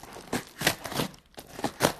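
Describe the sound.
Crinkling and tearing of packaging as a heavy, well-wrapped parcel is opened, with several soft rustling bursts separated by short gaps.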